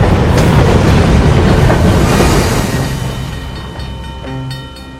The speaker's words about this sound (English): The train continues into the yard.